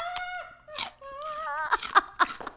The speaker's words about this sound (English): A little celery ASMR for you listeners.